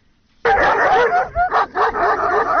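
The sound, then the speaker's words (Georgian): Stray dogs bark in the town of Lagodekhi: sudden loud barking and yipping breaks out after a moment of quiet and continues in rapid, overlapping bursts with whimpering yelps mixed in. “ლაგოდეხში ეს ხმა განუწყვეტლივ არა, თუმცა პერიოდულად დღის და ღამის განმავლობაში ისმის. აქ ასობით უპატრონო ძაღლში ხვდებით”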